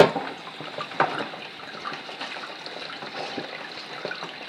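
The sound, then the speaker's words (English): Water running as cabbage is washed: a faint, steady trickle with small splashes, plus a slightly sharper splash at the very start and another around one second in. “Wash the cabbage. Oh, cabbage. Let me wash you.”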